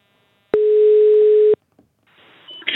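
Ringback tone while ringing someone on a telephone: one steady, clear mid-pitched beep lasting about a second, then faint rustling noise and no voices.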